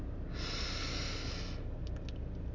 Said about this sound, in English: Now I want you to take a deep breath in through your nose